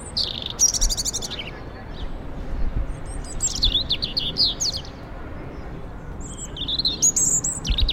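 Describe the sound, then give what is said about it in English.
European robin song: several bursts of high, thin, rapidly warbling phrases with pauses between, over a steady low background hiss. “It's the song of the European robin. And that's an extremely common bird, very well known here in the UK.”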